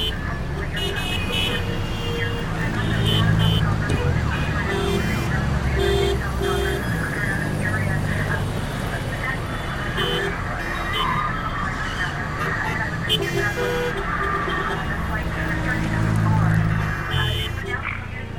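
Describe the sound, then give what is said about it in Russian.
Sirens and hazard warning signals sound in a traffic jam. Steady, repeated tones sit over a bed of road noise and engine rumble, and voices are heard at times. “Вокруг сирены машин и сигнал опасности.”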